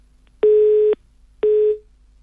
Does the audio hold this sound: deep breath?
no